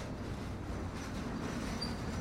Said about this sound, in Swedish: Tåget med sina 6 stora vagnar är ett viktigt färdmedel för tusentals människor som dagligen pendlar till och från huvudstaden.